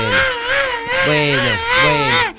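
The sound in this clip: Baby crying: loud, drawn-out wavering wails, a few in a row with brief breaks, ending abruptly.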